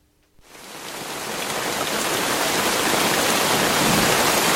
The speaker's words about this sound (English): The one I actually ended up listening to for quite some time was ask ambient sounds for rain on a tent.